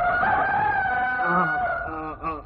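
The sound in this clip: A rooster crows once in a long, loud, sustained call that stays fairly level in pitch and then breaks into a few short, choppy notes at the end.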